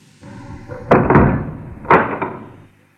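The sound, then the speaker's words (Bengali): A bedroom door is slammed shut, giving two heavy, booming thuds about a second apart, each followed by a brief rattle before fading. “বেডরুমে, আমি বেডরুমে দরজাটা আটকে দিয়েছি।”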